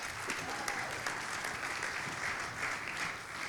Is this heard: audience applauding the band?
yes